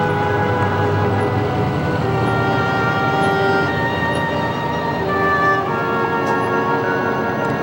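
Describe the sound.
A bus pulling into a depot, a loud, steady engine drone with a sustained tonal hum running throughout, with no voices.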